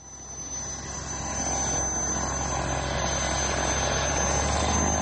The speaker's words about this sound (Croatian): Posle tri decenije rada motor je uključen, a propeleri su se zavrteli na izvoznoj nadi srpske avioindustrije.